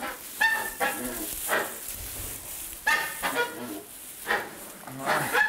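Egg-laying poultry squawk and honk in repeated harsh bursts while being checked for eggs. The loud nasal calls come about every second at a fairly even level.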